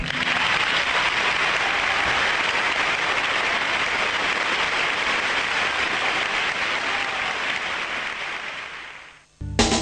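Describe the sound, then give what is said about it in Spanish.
An audience applauds an interviewee with dense, continuous clapping that stays full and even for about nine seconds, thins gradually near the end and then stops sharply. “vamos a inaugurar una nueva sección del programa que es aplaudir al entrevistado.”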